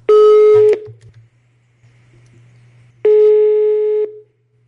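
Telephone line tones sound as a call is placed: two loud, steady electronic beeps, the second one longer. A quiet gap separates them, and a low hum runs underneath.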